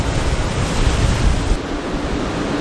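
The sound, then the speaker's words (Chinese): Rough sea surf and strong wind whip across a bay during a typhoon, a loud, steady roaring wash of noise that eases slightly partway through. “因为台风影响，这天的海龟湾内风大浪急”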